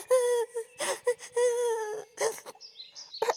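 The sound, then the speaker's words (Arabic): A woman crying, with high, wavering whimpers and sobs in several broken bursts separated by short pauses, heard alone without other voices. “لا تبكي يا صديقتي، لا تبكي يا حبيبتي”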